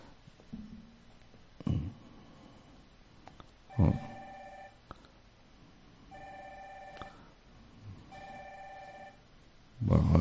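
Telephone ringing while a call to a listener goes out: three faint, evenly spaced ring bursts, each under a second long, separated by low background noise and a few soft thumps.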